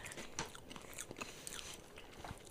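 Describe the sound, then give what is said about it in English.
Faint crunchy munching of food, with many irregular bites and chews crackling close together and no talk over them. “Y'all gonna hear me munching on this the whole episode.”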